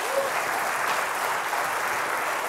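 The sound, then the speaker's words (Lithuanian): Audience applause greets a guest with a dense, steady wash of clapping that holds at an even loudness throughout. “plojimai”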